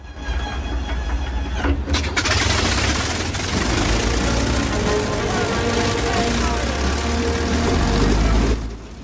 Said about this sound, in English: The squadrons start their engines.